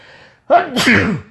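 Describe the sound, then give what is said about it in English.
A single loud human sneeze, a sharp explosive burst after a quiet breathy lead-in, heard alone. “oh, man, that's a loud sneeze.”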